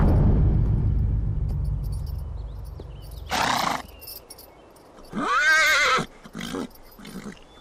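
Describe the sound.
Horses of approaching troops neighing amid hoofbeats: a low rumble of hooves fades, then a loud, wavering whinny rings out among short, noisy snorting bursts.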